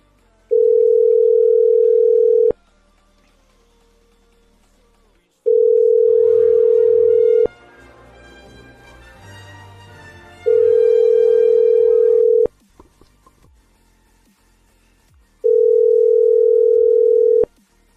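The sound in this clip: Telephone line tone after dialing a number: four steady, loud electronic tones of about two seconds each, evenly spaced, with low background noise in the gaps between them.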